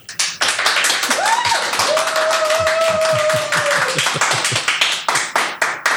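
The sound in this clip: An audience applauds as a poet is welcomed at a live Sacramento interview event, with sharp, distinct hand claps in a brisk, continuous patter throughout.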